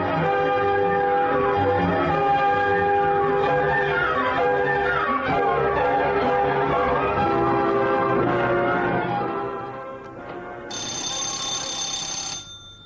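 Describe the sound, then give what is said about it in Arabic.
A doorbell rings once at a darkened apartment door, a steady, bright electronic tone held for nearly two seconds near the end, after a long, dense stretch of layered ringing tones. “اطلع احسن اضرب الجرس اشوف اللي جوه ايه”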